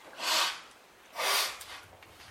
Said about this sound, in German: Also etwa 20 Mal feste Ein- und Ausatmen.